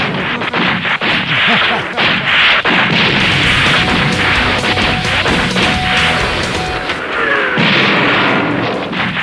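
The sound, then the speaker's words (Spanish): Mortar and gunfire sound effects form a loud, continuous barrage of dense booms, crashes and sharp impacts with a heavy rumble underneath, sustained throughout. “¡Era ahí otra bomba! ¡Mortero!”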